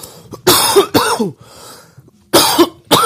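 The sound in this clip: Harsh coughing from people smoking a joint: a few rough, hacking bursts in two clusters separated by a short quiet pause.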